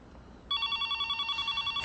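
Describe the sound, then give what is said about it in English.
A mobile phone rings with an electronic ringtone that starts after a short, quiet moment and pulses in a rapid, steady warble at a high pitch until the end. “I'm sorry, I thought I put that on voicemail.”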